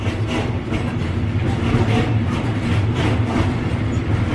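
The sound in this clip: A train running at speed gives a steady, loud rumble with a rhythmic clickety-clack of wheels on rails, heard alone with no voices.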